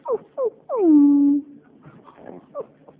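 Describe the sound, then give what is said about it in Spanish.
A dog whimpers over the telephone: two short falling whines, then a longer whine that slides down and holds a steady tone, followed by fainter, broken whimpers. “¿Conoces esta voz? Sí. Está llorando. Es tu perro.”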